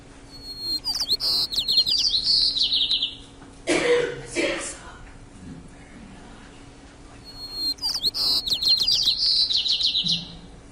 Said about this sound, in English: And one of the best spots to go find white-crowned sparrows is up at Tahoe Meadows. These guys will be singing away all summer long.